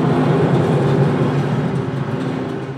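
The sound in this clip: Crane grab loaded with slag travelling across a slag processing plant, giving a loud, steady mechanical rumble with a low droning hum that eases slightly toward the end.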